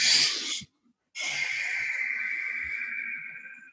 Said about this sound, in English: So if I do a quick inhale,